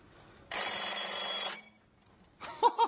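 A seemingly indestructible alarm clock rings in a loud, continuous burst of about one second. After a pause, a shorter, choppier burst of ringing follows.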